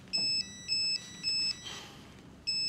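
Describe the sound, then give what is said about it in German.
A phone ringtone signals an incoming call: a thin, bright electronic two-note pattern plays in short bursts, three in a row with brief gaps, then a fourth begins after a longer pause. The bursts are fairly quiet. “Oh, jetzt ruft er schon wieder an.”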